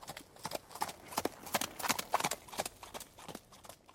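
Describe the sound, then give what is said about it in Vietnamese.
Horse hooves clip-clop in a quick, steady rhythm as a horse pulls a cart. Many crisp, moderately loud hoofbeats run through the whole stretch. “rồi leo lên xe quất ngựa rồi đi”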